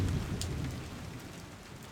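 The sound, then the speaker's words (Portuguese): Rain falls outside as a faint, steady hiss of drops, with a soft low rumble at the start that fades into the continuous patter. “Tá chovendo aí, aqui tá chovendo. Tá chovendo só fora, dentro de casa tá tudo seco ainda, por enquanto.”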